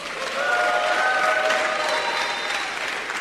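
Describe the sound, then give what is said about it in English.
Audience applause welcomes a guest speaker at a morning event, a steady, dense wash of clapping that holds at an even loudness for about three seconds with no voices over it. “please help me put your hands together and welcome our guest this morning, Mr. Joseph Kawombe of Lukomu Investments.”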